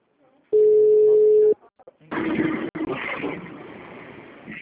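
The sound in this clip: Telephone dial tone heard while a call is being placed: a steady, loud tone holds for about a second and cuts off, followed by handset clatter and rustling noise.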